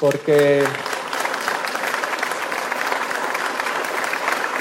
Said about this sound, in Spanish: Yo quiero darles un aplauso a todo el equipo de Secretaría del Ayuntamiento,